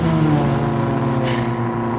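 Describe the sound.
A racing car's engine roars as it accelerates away at the start of a race: a loud, sustained, rich drone that holds steady throughout without breaks.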